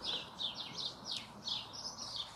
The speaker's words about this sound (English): Can you hear the birds?